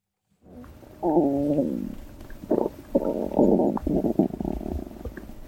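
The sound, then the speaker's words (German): Gurgling from a human stomach and digestive system: bubbling, squelching rumbles that rise in loudness and come in uneven, overlapping bursts of varying pitch, alone without any talk. “Unser Innenleben ist ganz schön laut, wenn man genau hinhört. Es gluckst und gurgelt.”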